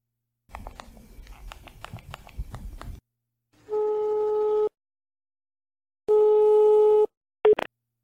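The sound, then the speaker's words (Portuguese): Ringback tone of an outgoing telephone call: two steady one-second tones separated by silence, then a brief clipped tone. Clattering, crackly handling noise comes before the first ring. “Bom, eu vou ligar para essa moça.”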